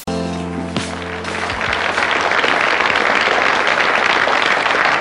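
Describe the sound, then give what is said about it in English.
Applause follows the end of a song as the last sustained musical notes cut off and dense, steady clapping takes over, continuing loud and unbroken to the end. “That is weird at the end of that song, how there's just clapping. I thought it was one of you talking.”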